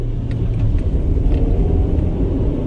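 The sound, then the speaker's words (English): A car driving on a smooth, well-kept stretch of State Highway 1 near the bottom of New Zealand's South Island, producing a loud, steady low road rumble with no talk. “Driving down State Highway 1, practically at the bottom of the South Island, this is a great road. It's smooth, it's well looked after”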